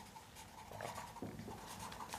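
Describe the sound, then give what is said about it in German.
Pen writing a word: faint, irregular scratching strokes with small ticks, quiet and without voices. “Ich schreibe mal nachdenklich.”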